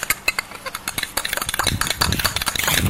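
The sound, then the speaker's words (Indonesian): A spoon clinks repeatedly against a glass as sugar is stirred into a drink, with many quick, light metallic taps that grow busier and louder toward the end. “Gula ya. Dah. Diaduk dulu dong.”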